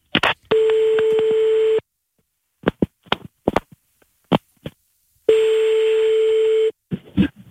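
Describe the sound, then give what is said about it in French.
An outgoing telephone call rings to a listener's phone with two long, steady buzzing ringback tones separated by a pause. Short bursts of talk fill the gap between them and follow the second ring. “On appelle tout de suite. Et oui, ça sonne maintenant.”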